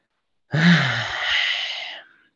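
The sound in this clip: A voice imitating one long, deep breath: a loud, airy exhale of about a second and a half that gradually fades out, heard alone.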